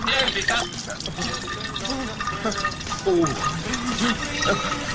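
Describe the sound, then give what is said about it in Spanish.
Liquid pours into a bottle with a continuous gurgling fill and scattered drips, mixed with voices talking over it. “La botella casi se llena y yo continúo.”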